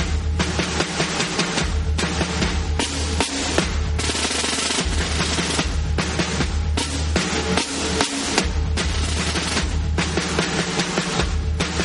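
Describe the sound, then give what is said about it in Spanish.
Machine guns and repeating rifles fire during Korean War battle footage near the 38th parallel. The sound is a loud, unbroken clatter of rapid bursts that barely lets up for the whole stretch. “Tanques y cañones son disparados sin cesar, así como soldados con metralletas y rifles de repetición no dejan de gastar munición.”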